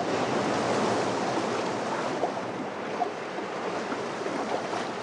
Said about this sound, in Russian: Он смотрит на огромные волны.